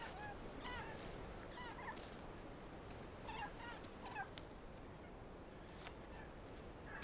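A megapode, a fat black chicken-like bird, calls on a volcanic island. Several short, hoarse, repeated call bursts rise above a steady, rushing background.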